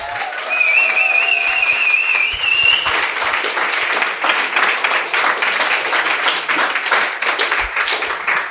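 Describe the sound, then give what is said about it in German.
A crowd fills a pop-up store in Berlin Mitte with loud, steady applause and clapping that runs throughout, opening with a high wavering tone. “Wir sind im Pop-Up-Store von Vi hier in Berlin in Mitte und der Laden ist voll. Ihr könnt es hören.”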